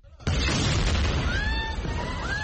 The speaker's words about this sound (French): Un hélicoptère au-dessus, une explosion dans la cour de l'hôpital des martyrs d'Al-Aqsa, dans le centre de la bande de Gaza.